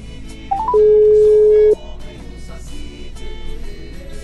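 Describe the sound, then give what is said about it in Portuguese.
Telephone tones from a call being redialled on a live radio show: a few short beeps stepping upward in pitch, then one loud, steady tone lasting about a second, which cuts off and leaves a low background hum. “Só um momentinho. Estamos chamando de novo.”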